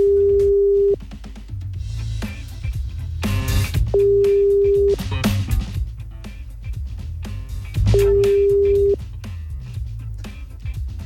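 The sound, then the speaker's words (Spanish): Ringing tone of an outgoing telephone call: three steady low tones, each about a second long and spaced about three seconds apart, heard over a busy background of other sounds. “A ver. Estamos llamando. ¿Aló?”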